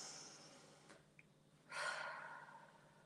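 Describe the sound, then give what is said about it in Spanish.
Deep breathing in a guided tapping relaxation exercise, inhaling hard and letting air out through the mouth: a faint airy breath fades early, then a loud rushing breath swells and slowly trails away. “vamos a hacer 3 respiraciones profundas, inhalando muy fuerte, escuchando el ruido y soltando el aire por la boca”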